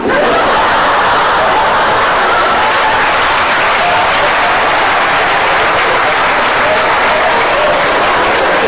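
Audience applause: dense, continuous clapping that holds a steady level for the full stretch without a pause.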